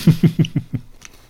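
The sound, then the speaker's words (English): Chewing on a mint-flavoured milk chocolate bar with a crispy wafer: five even, rhythmic low crunching bites in quick succession, fairly loud and without talk, fading to a faint click at the end. “it says mint flavoured milk chocolate with a crispy wafer. That is nice.”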